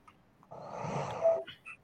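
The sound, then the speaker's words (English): Someone snores with a single rough, raspy breath lasting about a second, fairly quiet and alone. “Man, who is snoring already?”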